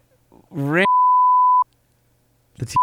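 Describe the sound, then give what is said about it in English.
A steady, high-pitched censor bleep cuts in over a spoken word, holding flat for under a second before stopping. Voices talk around it, and another short beep sounds as talk resumes. “No, you got to bleep that out.”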